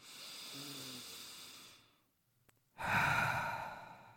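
Deep breaths during a guided breathing exercise: a long, steady, airy breath, then a brief silence, then a second, louder breath, with no talking.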